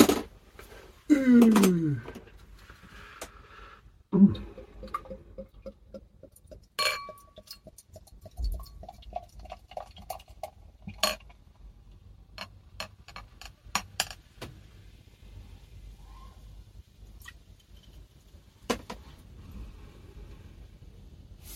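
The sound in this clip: A bottle of Erl Bräu Erlkönig Festbier, a light lager, is opened amid glass handling: sharp scattered clicks and a couple of louder ringing clinks, with quieter taps between them and people talking.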